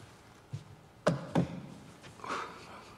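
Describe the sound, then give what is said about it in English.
A sheaf of papers set down on a podium desk beside a laptop in an auditorium, heard as three dull taps and thumps followed by a faint, brief rustle. “then puts a sheaf of papers down on a desk on the podium alongside a laptop”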